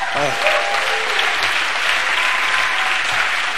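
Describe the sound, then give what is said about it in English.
An audience claps its hands in steady, dense applause that runs through the whole clip, with a voice briefly audible at the start. “Somebody clap your hands for him.”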